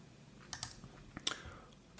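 A computer keyboard is typed on and clicked while an email is opened, giving a few faint, sharp, scattered taps and clicks with no talk.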